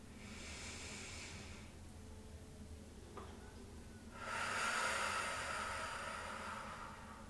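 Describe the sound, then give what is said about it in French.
Slow breathing in and out during a guided breathing exercise: two faint, airy rushes of breath separated by a pause, the second longer and stronger than the first. “J'inspire, je gonfle. J'expire, je dégonfle.”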